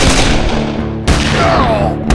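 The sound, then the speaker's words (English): A gunshot sound effect in an audiobook shootout at a bar: a loud, sharp report bursts over a dense rumbling din, with another sharp crack near the end. “Leeds hit the floor and shot once, hitting the outlaw in the chest.”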